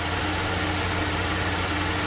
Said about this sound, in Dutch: Stationair is dit, hè? Komen de toeren zo, de turbo te laden.